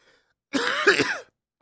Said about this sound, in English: excuse me, been coughing a lot